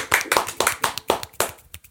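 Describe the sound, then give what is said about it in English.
Enthusiastic one-handed clapping makes several sharp, bright slaps in a quick, slightly uneven rhythm. They are loud and stand alone, each one brief and snappy. “I love the fact that you've done a really enthusiastic hand clap and you just did a one-handed.”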